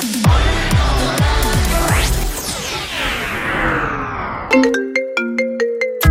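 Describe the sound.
A mobile phone ringtone of bright, short tonal notes repeats in a quick pattern. Before it come loud whooshing sweeps and crashing hits that fall in pitch, then a brief silence.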